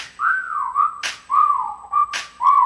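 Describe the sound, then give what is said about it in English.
A person whistles at a girl with a bright, wavering whistle. It runs in several sliding phrases, broken by two sharp, noisy bursts. “Okay, time to whistle at her. Hey, girl, you make my whistle blow.”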